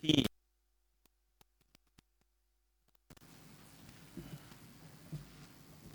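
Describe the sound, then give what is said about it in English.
Bible pages are turned after a near-silent pause with a few faint ticks, breaking into a soft, continuous papery rustle that swells and fades in places. “I do like to hear the rustling of pages. Matthew chapter 7, starting in verse 13.”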